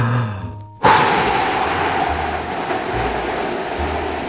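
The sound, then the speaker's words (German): A forceful exhalation through the mouth begins abruptly as a loud, breathy rush of air and holds steadily for several seconds, fading slightly, over a faint low hum. “Jetzt kräftig ausatmen.”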